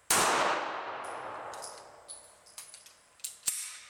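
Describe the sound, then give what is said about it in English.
A single shotgun shell fired from about 25 yards gives one sharp, loud blast with a long fading tail. Several faint metallic clinks follow. “I had one shell left, backed up to about 25 yards. Fired one round, maybe a lot, maybe not.”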